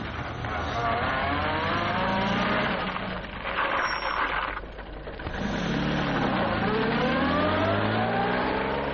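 A car being driven, its engine running loud and continuously with revving surges that shift the engine pitch up and down.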